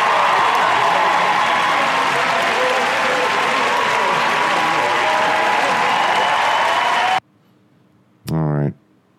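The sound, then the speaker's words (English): Applause and cheering from a crowd, loud and sustained for about seven seconds, then cut off abruptly into near silence before a short tonal burst. “Ben, everybody. Where's the cheers? Ben, everybody.”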